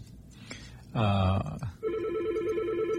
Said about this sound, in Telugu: సరే మనకు కాలర్ వస్తున్నా చూద్దాం.